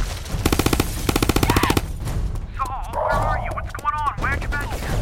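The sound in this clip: Machine-gun fire during a firefight on a rooftop: a rapid, loud burst of many closely spaced shots lasting over a second, followed by noisy commotion and urgent shouting voices.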